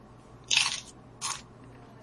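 Crunchy bites of food eaten with Secret Aardvark habanero hot sauce: two crisp, sharp crunches with a quiet pause between them, and a third just beginning at the end.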